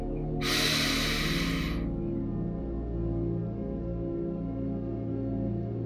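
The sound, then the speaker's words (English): A person takes one deep breath in, a breathy hiss lasting about a second and a half, set over soft, sustained background music that continues after the inhale ends. “Let's take another deep breath in.”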